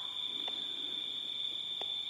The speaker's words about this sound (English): The sound of the crickets